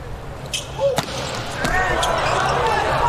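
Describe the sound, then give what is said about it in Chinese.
A volleyball jump serve during a match: a couple of sharp ball smacks ring out over crowd noise, with the noise swelling afterward and a commentator's voice present. “杨宝奇上来继续发球， 看杨宝奇跳发，前面两个球发的不错”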